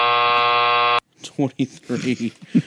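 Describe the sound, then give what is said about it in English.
A harsh electronic game buzzer blares for about a second, a steady, loud, droning tone that cuts off sharply before a voice starts talking. “I don't know if that buzzer was for me or for the game manufacturers.”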